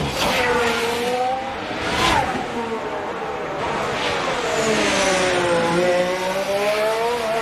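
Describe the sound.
A race car's engine drives hard around a circuit, cutting over the kerbs. It gives a continuous, loud whine that shifts in pitch as it revs and eases, under steady commentary talk.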